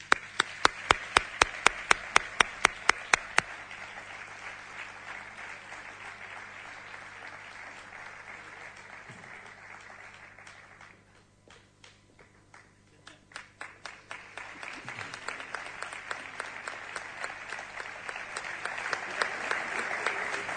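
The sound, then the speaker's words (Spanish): Applause at an awards ceremony as a prize winner is called up. Rhythmic, evenly spaced clapping opens it, the clapping fades briefly, then it swells again into steady, rhythmic applause. “le pido que suba por aquí, que le demos un aplauso”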